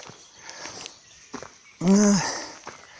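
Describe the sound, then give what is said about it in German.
Footsteps walking up a steep path, soft and uneven, with a brief breathy vocal sound partway through. “Bin jetzt schon wieder auf so einem steilen Weg, wie man hört.”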